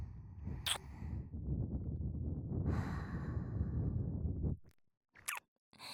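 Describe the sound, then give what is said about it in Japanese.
Gentle blowing into an ear to dry it: a long, soft, breathy stream of air held for several seconds, then a brief pause and a short, lighter puff of breath. “ふうふうして、お耳乾かしてあげる。”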